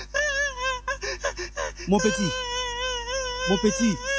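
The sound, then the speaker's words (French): A child crying in two short clusters of sobbing, whimpering bursts over a steady tonal background. “c'est toujours le même enfant au même endroit en train de pleurer”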